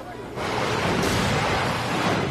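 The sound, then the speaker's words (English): Ocean waves surge against a dock at Long Beach, New York, a loud, steady roar of rushing water and wind that swells in after a short quiet start and holds without a break. “And now we give you a look across Long Beach, New York, where you can see the waves are still rocking the dock there.”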